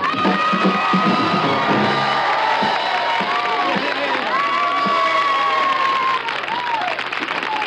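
A crowd applauds and cheers a performer who has just landed a high double somersault. Dense, continuous clapping mixes with shouts and whoops, loud and sustained throughout.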